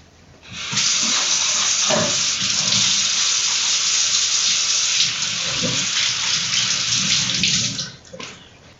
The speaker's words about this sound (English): Just going to wash my hands.